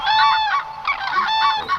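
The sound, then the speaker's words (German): Common crane calls ring out as a few loud, harmonic, trumpeting honks, each held briefly and separated by short gaps, with no voices. “Das ist der Kranich”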